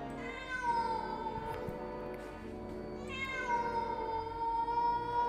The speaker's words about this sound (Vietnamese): ở cái bụi cây phía sau vang lên những tiếng mèo kêu đến ghê rợn.